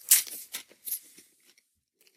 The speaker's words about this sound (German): Knäckebrot während einer laufenden Aufnahme essen.